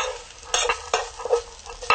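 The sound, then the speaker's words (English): Food sizzles steadily in a hot pan while a utensil stirs it, with several sharp scraping strokes at uneven intervals over the constant frying hiss. “and it's sizzling, and it smells pretty good.”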